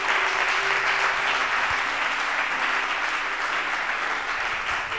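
A church audience applauds with dense, continuous clapping that holds at an even level for about five seconds.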